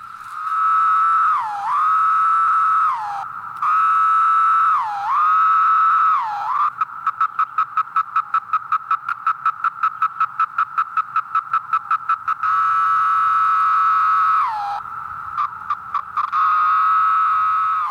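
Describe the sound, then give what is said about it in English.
A chorus of periodical cicadas, the 17-year kind, makes a loud, steady, high buzzing drone. Several calls end with a drop in pitch, and a long stretch of rapid, even pulsing sits in the middle before the drone resumes. “You would, too, if you woke up only once every 17 years. Lang Elliott and Will Hershberger recorded this chorus of creatures for their new book, The Songs of the Insects, from Houghton Mifflin.”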